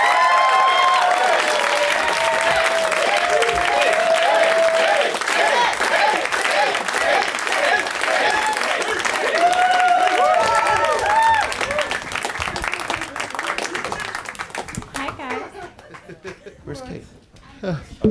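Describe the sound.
Studio audience applause welcoming guests to a live comedy show in Los Angeles: sustained, loud clapping with bursts of laughter and voices talking over it, thinning out toward the end.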